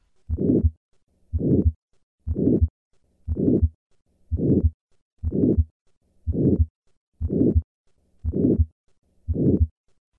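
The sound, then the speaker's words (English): Heart sounds with the murmur of aortic regurgitation, recorded at the second right intercostal space: ten regular beats about a second apart, each a low, rough whooshing burst, with no talk. “This is aortic regurgitation. Heart sound number two, recorded at the second right intercostal space.”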